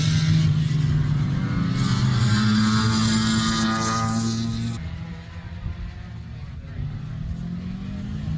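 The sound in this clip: Race car engine during qualifying at the Put-in-Bay road race, a loud, steady droning roar with strong low tones that eases down in level about halfway through and then holds.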